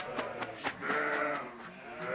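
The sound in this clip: Pregnant East Friesian milk sheep bleating as they are loaded into a trailer, several short, fairly loud bleats in quick succession, with one longer, wavering call, and no talk.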